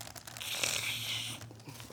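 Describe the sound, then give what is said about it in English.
Old, glued and taped Bible pages that stick together are turned and pulled apart, making a brief papery rustle and crinkle. “Hebrews chapter number 10, if I can find my place. My pages are sticking together. My pages are glued and taped. They're falling apart.”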